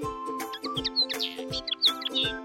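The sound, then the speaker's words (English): A little bird chirps outside a window, giving many quick, high chirps and tweets in an uneven rhythm over a steady tonal background. “窗外飞来了一只可爱的小鸟我们一起来跟它打个招呼吧”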